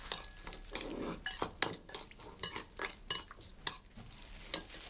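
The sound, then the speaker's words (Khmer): A spoon stirs a sweet-sour mixture, scraping and clinking against the container in many quick strokes with an uneven rhythm, fairly loud and with no voices. “យើងត្រូវដាក់ប្រហែលជា1ស្លាបព្រាបាយនឹងហើយយើងកូរវា”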